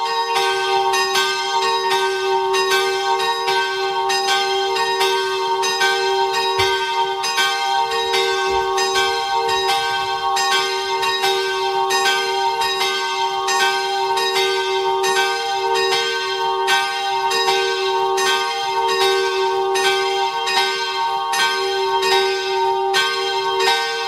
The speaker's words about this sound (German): Es ist 12 Uhr. Sie hören die Glocken der Kirche Herz Maria in Bludenz in Vorarlberg.